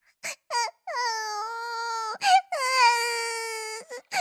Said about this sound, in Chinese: 隐约间他好像听见了哭声